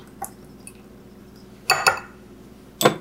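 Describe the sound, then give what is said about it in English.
Whisk or utensil clinking against a bowl while egg mixture is combined for chocolate chip cookie dough: a few sparse, bright metallic clinks and taps separated by quiet gaps, the strongest coming as a short cluster near the middle and one near the end. “And we're going to whisk. And you just want to kind of combine it. You don't have to whisk it too much.”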